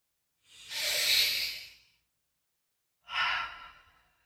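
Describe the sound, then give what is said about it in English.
Two deep, airy breaths taken during a guided breathing moment: a long, breathy rush of air swelling and fading over about a second and a half, a pause of silence, then a second, slightly shorter breath that is cut off at the end. “let's take 3 deep breaths.”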